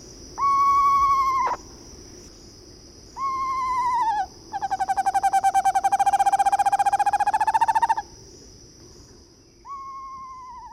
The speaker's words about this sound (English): Now here's the sound of a real screech owl.